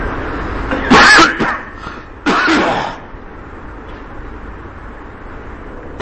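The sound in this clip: Harsh coughing in a quiet setting: two rough bursts close together, the second slightly longer, followed by a steady low background hiss.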